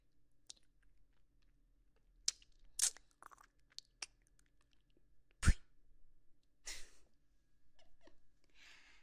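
Crunchy chewing of a treat given as a reward: several crisp, sharp crunches and bites come at irregular intervals, with one louder crunch near the middle. The sounds are faint overall, with quiet between them and no talk.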